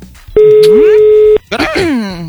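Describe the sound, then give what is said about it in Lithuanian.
A telephone line tone sounds while a listener, the groom of a newlywed couple, is being called: one steady, loud buzzing beep of about a second, followed by people talking. “Skambinam Dariui, turėtų atsiliepti Darius.”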